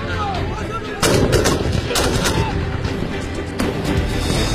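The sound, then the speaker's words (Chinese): Gunfire booms during a military exercise against transnational armed crime groups: a few heavy, cracking blasts stand out over a continuous loud rumble of firing. “开始射击。”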